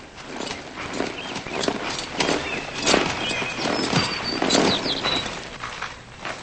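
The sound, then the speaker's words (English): Horse hooves clip-clop irregularly as a rider pulls to a stop while a wagon races out of a driveway onto a road, spilling its load. The hoof strikes are dense and steady, with other scuffing noise around them. “He pulls his horse to a stop as a man driving a wagon races out of the driveway, spilling contents as he turns onto the road.”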